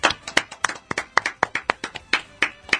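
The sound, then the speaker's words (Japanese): Hand clapping during a live talk program: many crisp, separate claps in a loose, slightly uneven rhythm, each sharp and distinct with short gaps between them. “拍手”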